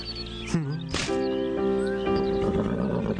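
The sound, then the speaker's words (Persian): A horse neighs in a loud, shrill whinny that rises and falls, followed by a sustained steady tone. “قربان، این هم اسبتان، به درستی آوردمش.”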